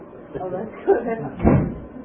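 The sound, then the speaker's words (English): A door is shut and locked while people talk over it. A few dull knocks and a thump rise briefly from the voices, with no clear latch click standing out. “No, I'm going to lock the door.”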